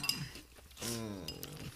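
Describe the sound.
Spoon clinking in a bowl while someone eats cereal, a few light, faint metallic clinks with a short voiced sound in the middle.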